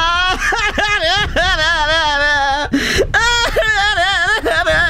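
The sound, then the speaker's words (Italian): A comedic voice imitates crying for a character named Harry, with loud, wavering, high whimpers and wails in a quivering, sobbing pitch, broken by a few short breaths. “Harry, figlio di una segaiola maldestra Rotter, che cazzo hai da piangere?”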